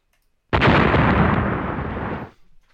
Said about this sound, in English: Exploding swords.